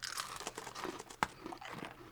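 Crunching from chewing crunchy freeze-dried mango, with many small dry crackles and one sharper snap partway through. The sound is faint and steady, with no talk.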